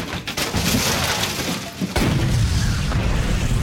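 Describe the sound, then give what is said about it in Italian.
Loud crashing and roaring from a Formula 1 racing car that spins out at the Nürburgring, hits the ground and catches fire. A continuous harsh rumble surges sharply louder partway through, with no voices. “L'auto fuori controllo taglia in diagonale la pista e scivola verso la rete di cinta. Subito dopo c'è il fianco della collina. Lo schianto la fa volare in aria e poi ricadere sui rottami finché si incendia”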